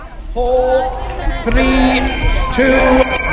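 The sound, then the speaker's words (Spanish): Crowd noise at a worm charming championship in Willaston, Cheshire: many voices talking over one another, with clinks and ringing, bell-like tones rising out of the steady hubbub. “Tenemos, por ejemplo, el Campeonato Mundial de Encantadores de Gusanos, que se celebra en Willaston, en Cheshire, y que suena así.”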